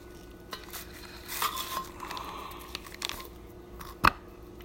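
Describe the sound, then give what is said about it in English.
A knife cutting butter in a kitchen, heard as faint soft scrapes and light utensil clinks against a dish, with one sharper clink near the end. “So I have the same thing. So I need to just cut my butter.”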